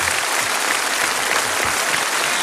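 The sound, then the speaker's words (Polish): Audience applause for a boys' Tahiti-themed costumed dance performance: loud, dense, evenly sustained clapping with no talk over it, holding steady throughout. “Dodatkowe brawa za gustowne i estetyczne kostiumy.”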